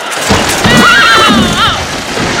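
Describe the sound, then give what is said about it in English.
A horse whinnies in a wavering, high neigh through the middle while a horse-drawn carriage approaches, over constant loud background noise with possible hoof clip-clop. “Wait, there's a horse-drawn carriage coming the other way.”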